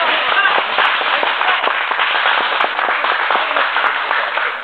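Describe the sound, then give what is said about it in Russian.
An audience claps their hands at a workers' gathering before bonuses are handed out, a thick, crackling patter of many hands that stays level and continuous from start to finish. “Давайте скажем им спасибо и похлопаем в ладоши.”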